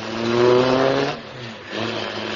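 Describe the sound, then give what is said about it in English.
A car engine revs as the car drives off around the grounds. The harmonic drone is loud and rising, dips briefly midway, then returns steady. “They're only going to drive around the grounds.”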